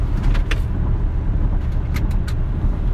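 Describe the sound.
Steady low road rumble from inside a moving car, a continuous engine and tire drone that stays even throughout, with a few faint brief clicks over it and no talk.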